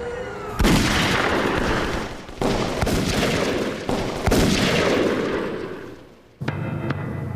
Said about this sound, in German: Es fielen keine weiteren Schüsse mehr.